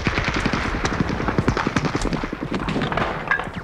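Light machine gun fire during an infantry advance in battle, a dense, rapid stream of sharp reports that tumble close together and continue without a break.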